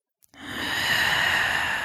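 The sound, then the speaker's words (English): A voice imitating deep, low breathing through the nose: one long, steady, breathy rush of air with a soft low rumble, fairly faint and without words. “she made like a, I don't want to say it's like a low roar, but she made like a low sound as she breathed in and out,”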